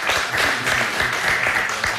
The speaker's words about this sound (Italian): Vabbè dai, un applauso, troppo buono il maestro Jarno.